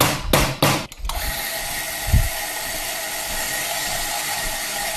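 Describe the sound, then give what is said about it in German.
The gear pump of an espresso machine starts up: a few sharp mechanical clicks come first, then a steady whirring drone with a low hum runs on evenly to the end. “Und los geht's. Das ist die Zahnradpumpe, die wir hören. Hat immer so eine Anlaufzeit.”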